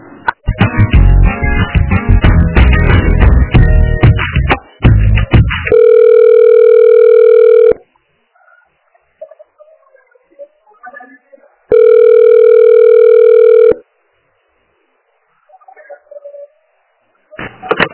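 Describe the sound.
Telephone line tone after a dropped call transfer: a loud, dense jumble of sound gives way to two steady tones, each about two seconds long, separated by a pause with faint scattered sounds.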